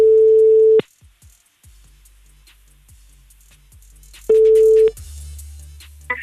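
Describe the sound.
Ringback tone of a telephone call going through to an answering machine: a steady ring, a long near-silent stretch with faint clicks, a second shorter ring, then the line changes to a low hum as it picks up.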